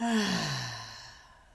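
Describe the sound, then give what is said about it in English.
A deep, loud breath out during a guided breathing exercise: one long audible sigh, voiced at the start with a falling pitch, trailing off into a fading airy exhale. “And do that deep and loud to get any toxins out of your body. So breathe in and out.”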